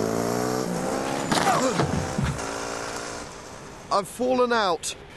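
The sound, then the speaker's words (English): A car engine roars as it is driven fast, a sustained harmonic drone with sweeping rises and falls in pitch, ending in a few sharp revving bursts. “Whoa, slow down. We're not going to get there any quicker by driving fast.”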